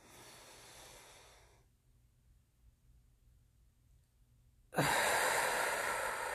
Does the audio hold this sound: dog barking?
no

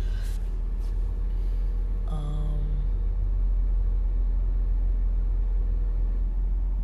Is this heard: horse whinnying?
no

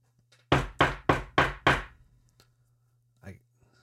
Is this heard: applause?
no

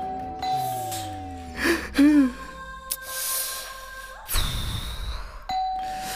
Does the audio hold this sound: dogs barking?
no

